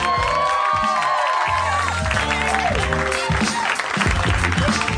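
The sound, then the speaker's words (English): A live audience applauds and cheers as the host of a comedy show is introduced: steady, loud clapping with whoops and shouted cheers rising through it, and voices mixed in. “Put your hands together for the mayor of Harmontown, Mr. Dan Harmon.”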